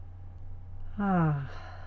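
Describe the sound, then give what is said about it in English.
A single slow breath out is released as a soft voiced sigh that lasts about half a second and falls gently in pitch, with quiet background before and after. “And then breathe out,”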